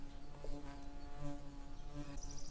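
Continuous buzzing of an insect trapped in a jar: a steady, droning hum with a slightly wavering pitch that persists throughout, with small swells in loudness and no voices.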